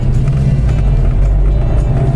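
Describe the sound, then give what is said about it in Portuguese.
A car's V4 engine runs with a steady, loud, low rumble, even and continuous throughout with no revving. “Esse som do V4, ele é bem compassado. É bacana o som do V4.”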